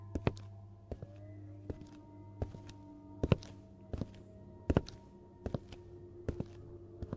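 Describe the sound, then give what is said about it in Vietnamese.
Hurried footsteps of a prison guard coming from afar, heard as a steady series of dull thuds about a second apart over a low, constant hum. “Minh Hải nghe tiếng bước chân của quản giáo dồn dập vọng tới.”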